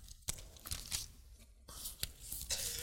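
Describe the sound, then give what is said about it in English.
Bible pages are turned by hand: a few soft, crisp paper flips and rustles, faint and alone. “I have it in my notes, but I just want to feel paper turning tonight.”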